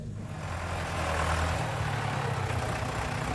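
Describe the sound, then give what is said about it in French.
A tractor engine runs with a steady low rumble and a grainy mechanical drone that holds at an even level throughout, with no voices. “Jean-Pierre vient donner un coup de main avec son légendaire tracteur”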